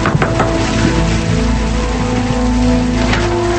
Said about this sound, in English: Later, it's raining as she knocks on a door.